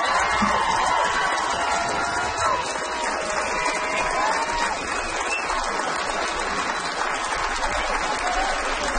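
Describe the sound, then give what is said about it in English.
Applause and cheering from a comedy club audience after a stand-up set: dense, sustained clapping that stays loud and steady throughout, with scattered whoops and shouts mixed in. “Another round of applause for Mason.”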